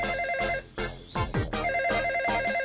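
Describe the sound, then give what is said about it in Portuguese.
A telephone rings unanswered, a loud warbling electronic ring heard in two bursts separated by a short gap, with no talk. “Mas porquê que ninguém atende o telefone?”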